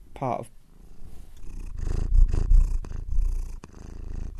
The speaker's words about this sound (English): And listeners may be able to hear our pussycat. Yeah. Purring. She's stalking around the bed.